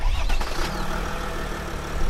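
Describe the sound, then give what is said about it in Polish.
An ambulance engine starts: a rough, loud rumble at first, then settling into a steady, low mechanical drone as the vehicle gets going. “Siadamy za kierownicę i jedziemy dalej.”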